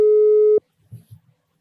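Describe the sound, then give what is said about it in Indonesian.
A telephone line tone sounds as a phone call is placed: one steady, mid-pitched tone holds for about half a second and cuts off abruptly, followed by a brief, faint voice. “Kita telepon guys.”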